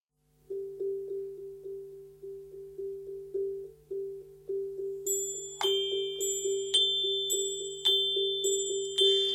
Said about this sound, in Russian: Давай и мы возьмем колокольчик.